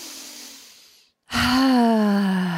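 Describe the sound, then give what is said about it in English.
A deep breath is drawn as a soft, breathy gasp that fades out. After a short silence, a steady voiced tone follows, louder and sustained to the end. “I take a breath now.”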